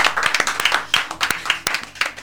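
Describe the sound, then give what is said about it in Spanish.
Applause from an audience: many quick, sharp claps in an irregular patter, fairly loud and steady for the whole stretch, with no voices over it. “Aplauso. Okay. Aplauso, sí.”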